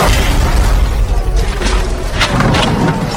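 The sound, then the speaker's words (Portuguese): A Formula 1 car crashes hard into the wall at the Tamburello corner at 216 km/h, heard as a loud, rough roaring rush of noise with a few heavier bursts toward the end. “E durante a sétima volta, na curva Tamburello, acontece o acidente que nenhum jornalista ou fã de Fórmula 1 esperava.”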